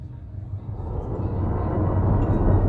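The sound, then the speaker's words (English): A shuttle arriving and docking gives a deep, rumbling mechanical drone that builds steadily in loudness over the span. “Shuttle docked. Please allow guests to disembark before boarding shuttle.”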